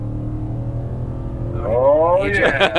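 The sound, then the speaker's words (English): A V8 car engine on Pacific Coast Highway starts with a steady low hum, then revs and pulls away, its harmonics climbing in pitch and growing louder over the final second. “Oh, it's on the gas. Oh, it's good. Yeah, it's funny. It's so quiet and refined inside, but outside, you can just hear that V8 sing, and it sounds so good pulling away.”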